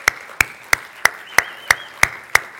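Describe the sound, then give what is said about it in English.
Hand claps welcome church members back from a missionary trip to Virginia: eight sharp, evenly spaced claps in a steady, slow rhythm. “Welcome, ladies. Let's give a big hand to the ladies just got back.”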